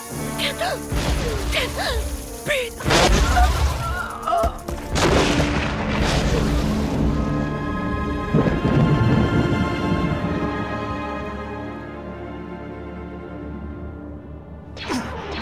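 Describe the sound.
Weapon fire in a science-fiction audio drama: heavy booming blasts with crashing impacts, several loud hits spread over a sustained tonal musical drone, ending on a final sharp strike.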